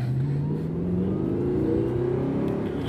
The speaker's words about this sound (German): So, jetzt schalten wir den zweiten und dann geben wir mal Gas.